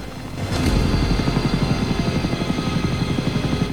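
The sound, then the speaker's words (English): A helicopter lifting off and flying away: the engine swells up within the first half second, then the rotor blades beat in a loud, steady, rapid rhythmic thumping that continues throughout. “The chopper lifts off as Alvarez's men get nearer, then flies away into the darkness.”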